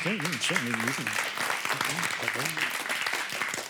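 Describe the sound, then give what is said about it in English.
Audience applause at a live talk: dense, steady clapping fills the whole stretch at an even level, with a voice speaking over it. “I'm going to expect you to clap later, so maybe that was just the warm-up clap. Because when you clap later, it's going to have to be better than that. But that was pretty good, considering it was uninitiated.”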